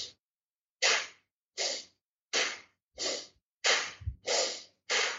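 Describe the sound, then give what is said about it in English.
Forceful exhales in a breathing exercise: eight sharp, breathy bursts in an even rhythm, the first cut off at the start. Clean silence separates each burst. “getting that force exhale. It's harder to do it standing up. It's a little easier to do it sitting down.”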